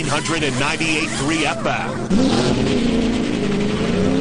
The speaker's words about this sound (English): Start your engines.